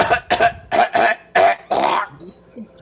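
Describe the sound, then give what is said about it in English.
Hacking coughs from a person, a quick run of harsh, raspy bursts in close succession that trail off into a few faint, soft sounds. “you trying to cough up a lung too?”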